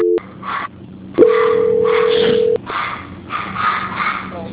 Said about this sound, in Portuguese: Só não desliga porque eu vou estar transferindo a ligação.